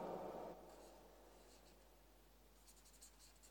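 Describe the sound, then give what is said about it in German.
Faint, scratchy handwriting strokes as the word Jesus is written out, with soft intermittent scraping in a quiet setting and no talk. “Ich schreibe jetzt mal hier Jesus dazu.”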